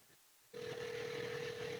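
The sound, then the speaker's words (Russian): A steady telephone line tone sounds while a studio number is dialed. After a brief quiet it starts abruptly and holds as one even, unbroken hum to the end. “Я наберу номер телефона студии”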